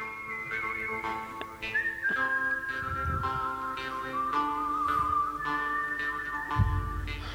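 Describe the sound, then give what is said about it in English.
A whistled Western film theme: clear, sustained whistled notes hold long and step between pitches, with a low steady backing and a few soft thumps underneath. “What is this from? It's good, the bad, and the ugly.”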